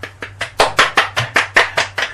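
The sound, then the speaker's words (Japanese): Hand clapping by the hosts themselves in place of an absent audience: a steady run of many evenly spaced, sharp claps over a faint low hum. “今回はお客さんいないとこで喋ってるから、 いや、そうですよ、 自前で拍手入れないといけないよね。”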